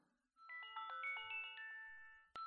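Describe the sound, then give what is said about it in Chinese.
An alarm clock rings with a bright electronic melody of quick chiming notes, faint and steady, ending in a sharp click. “闹铃响了，这么快就到点了。”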